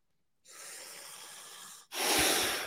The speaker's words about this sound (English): It's a O2 trainer. It's got a flap on this side. On the other side is a hole.